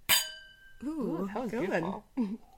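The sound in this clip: Wine glasses clink together in a toast, giving one bright, ringing chime at the start that fades quickly before people begin talking.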